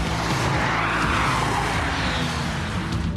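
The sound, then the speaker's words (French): Tires skid and scrub as a car drifts at speed, a dense, continuous roar of tire noise and engine running loud and unbroken from start to finish. “Je t'avais dit qu'on prend un peu de drift.”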